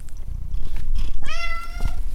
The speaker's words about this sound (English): I'm Gary Niederhoff, and that's my cat, and he's taken up hunting, which is great fun because he brings prizes